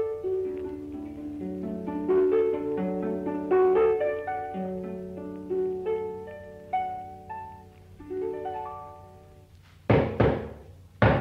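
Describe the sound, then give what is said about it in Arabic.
Knocking on a door: a few loud, sharp raps come at the end, after a long stretch of melodic music. “افتح الباب يا حنيشه انا عارف دي خبطه مين”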